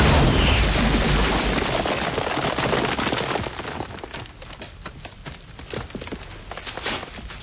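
A weapon blast breaks through a calcite rock formation: a loud, dense roar of crumbling rock with splintering crackle, easing partway through into a lower, steady rubble-like crackle that continues to the end.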